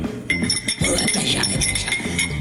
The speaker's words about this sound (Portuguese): Beleza, é um som de salão, achei que tava querendo que eu reconhecesse.